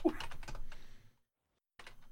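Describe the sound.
Fingers typing on a computer keyboard: a quick run of light clicks for about a second, a short silence, then the clicking starts again.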